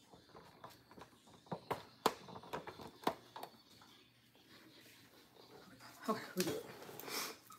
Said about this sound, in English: All right, now I'm fat and out of breath.